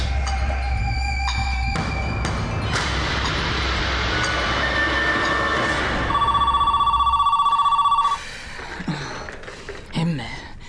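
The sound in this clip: A telephone rings in one loud, buzzing burst of about two seconds after a dense, noisy stretch. Quieter rustling sounds follow.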